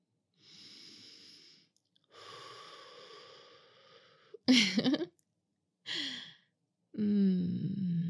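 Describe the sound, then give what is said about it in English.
Deep breathing from a person following a coach's cue during exertion: five airy breaths, some long and hushed, one short and sharper like a snort, each separated by a brief silence, with no talk. “Take some deep breaths for me.”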